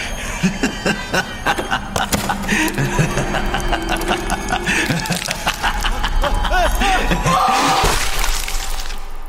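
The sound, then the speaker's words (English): Sound from the video game Five Nights at Freddy's, where a security guard is chased by an animatronic bunny: a dense, continuous racket of mechanical rattling, clattering and harsh crashing noise that grows louder toward the end. “Okay, that was Five Nights at Freddy's. Now, the audience here in the Newpark Hotel could see visuals. For the listeners, It looked like a security guard being chased by an animatronic bunny.”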